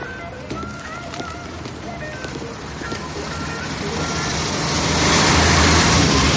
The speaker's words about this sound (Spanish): Un camión de la basura pasa entre ellos y cuando Dave